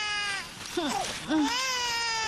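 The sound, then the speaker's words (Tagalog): A hungry baby, the youngest in the family, crying in two short, wavering wails that rise and fall, fairly faint over a steady tonal background. “Naku, umiiyak na yung bunso ko. Gutom na yata yung baby bunso ko.”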